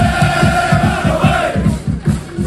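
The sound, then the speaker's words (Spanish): Rayo Vallecano football fans chant in the streets of Leipzig, a loud crowd singing together over a fast, steady low beat that pulses evenly throughout. “Ya se dejan sentir por las calles de Leipzig, y de momento, Manolo, lo mejor es que a esta hora, ambiente de cordialidad absoluta con los seguidores vallecanos. Así suenan a esta hora las calles de Alemania.”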